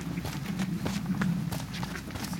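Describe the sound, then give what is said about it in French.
Footsteps crunch along a small path, many quick, evenly spaced steps in a steady walking rhythm over a low hum, with no talk. “on marche un petit, euh, un petit chemin.”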